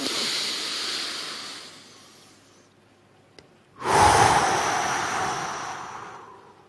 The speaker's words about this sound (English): I'll do one breath with you. Just kind of try and imitate what you can see with me. Take a massive breath in.